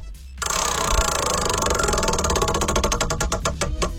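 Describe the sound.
Prize wheel being spun during a game segment, a dense rapid ratcheting clatter of clicks that become more distinct toward the end.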